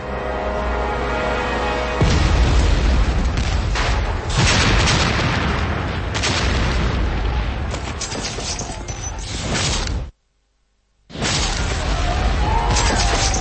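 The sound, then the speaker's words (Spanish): Cannon fire booms during a 1776 attack on New York City in the Revolutionary War, a loud, continuous barrage of deep blasts and crashes that drops to a brief silence before resuming. “Septiembre de 1776. La ciudad de Nueva York está bajo el fuego.”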